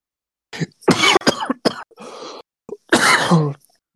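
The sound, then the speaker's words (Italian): Coughing fit after suddenly choking while simply breathing: a rapid string of harsh, loud coughs and throat-clearing bursts, some clipped and some drawn out, ending in one long strained cough. “Mi sono affogato, mi sono affogato all'improvviso.”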